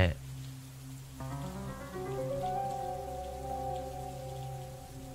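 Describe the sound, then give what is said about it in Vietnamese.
Rain pattering at night, with a soft, steady patter alongside sustained tones. “mưa vẫn rì rào trong đêm”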